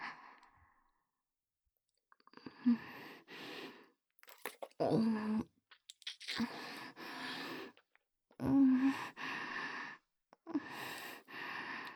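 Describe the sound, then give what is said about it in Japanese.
Close biting and chewing mouth sounds on a shoulder come in several short bursts of wet clicks and breaths, separated by brief pauses. “いいよ、いっぱい噛んであげる。じゃあまずは右肩。”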